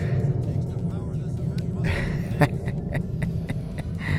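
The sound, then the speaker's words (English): Airplanes flying overhead make a steady low, rumbling drone that fills the whole stretch, with scattered sharp clicks and taps on top. “these airplanes are driving me nuts.”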